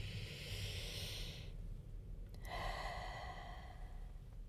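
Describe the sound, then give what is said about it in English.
A slow, deep, even breath, heard as a soft, airy inhale and then, after a short pause, a long hissing exhale. The breath is faint and heard alone. “take one last slow, even, deep breath”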